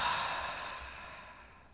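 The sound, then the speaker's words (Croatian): A long, slow exhale through the mouth after a deep breath, a quiet airy breath that fades out gradually over under two seconds. “duboki udah na nos i onda lagani izdah, dugi izdah na usta.”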